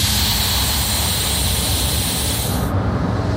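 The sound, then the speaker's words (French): A loud, steady hiss as a small mountain train brakes hard and comes to a stop at La Mure station, south of Grenoble. The broad rushing noise stays constant, then its sharp upper edge cuts off abruptly just before the end. “le train s'est arrêté. Oui, le train est à l'arrêt”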